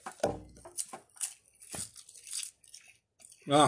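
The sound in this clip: Biting and crunching seasoned nori sheets: quiet, crisp crackles and crunches scattered through the stretch, mixed with people talking.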